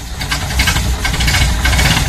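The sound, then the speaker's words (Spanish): Car engine idling in a mechanic's workshop, a loud, steady low rumble with a lightly knocking, pulsing texture and no pause throughout. “el hombre que mientras escucha Radio Norte le mete mano a los motores. Así merito,”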